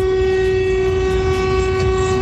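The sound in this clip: A horn honks in one loud, unbroken blast, a steady tone rich in overtones held throughout over low rumbling noise.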